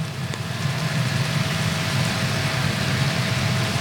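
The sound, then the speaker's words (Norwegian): A limousine carrying the royal family drives past during a funeral procession, heard as a steady low engine rumble under a broad, constant wash of outdoor noise. “Og der kommer også limousinen med kongefamilien.”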